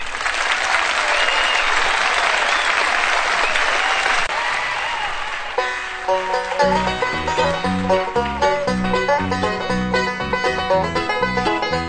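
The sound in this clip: An audience applauds to welcome the Osborne Brothers, Sonny and Bob, to the stage at a live recording. The clapping is dense and steady for about five seconds before music starts up.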